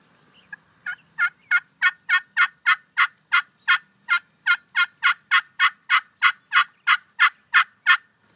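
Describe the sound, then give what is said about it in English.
A turkey hen gives a plain yelp: a long, steady series of many evenly spaced, clear yelps at a regular rhythm, loud and alone, with no voices. “this is like the most universal turkey sound that there is, probably, is just a plain yelp of a hen, and it's just going to sound like this.”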